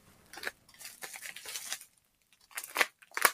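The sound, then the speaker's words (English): A blade cuts open a cardboard box holding something wrapped in bubble packing. Several bursts of scraping, tearing and crinkling are separated by short pauses, and a sharper crackle comes near the end. “Be careful cutting that open. That's what I was worried about you opening. Yeah. Don't cut the box open on that one.”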